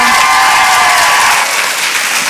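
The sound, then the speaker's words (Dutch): An audience at a summit event breaks into loud, sustained applause, a dense, even roar of clapping that holds steady throughout. “Mag ik een daverend applaus voor Marielle?”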